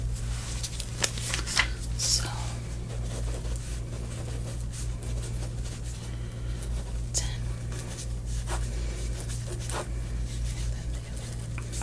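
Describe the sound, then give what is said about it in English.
Pen scratching as notes are written down during an ASMR doctor roleplay: soft, continuous scratchy strokes with occasional slightly louder scrapes, all quiet over a steady low hum. “Okay, so let me write that down. And I also have to write down the other one.”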